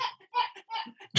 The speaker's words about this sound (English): I heard a rooster crow,